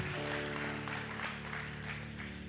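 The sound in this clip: A church audience applauds the worship team, a fairly quiet, even spread of clapping laid over sustained musical tones.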